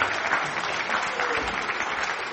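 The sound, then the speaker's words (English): An audience applauds in a steady, continuous wash of clapping that holds the same moderate loudness for the whole short stretch, with no voices over it. “Let's give her another round of applause.”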